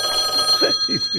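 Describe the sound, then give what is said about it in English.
A telephone ringing on an outgoing call, a steady ringback tone that holds throughout the short clip with little change. “So I gotta call them and make sure that we can even hear. Watch him not answer.”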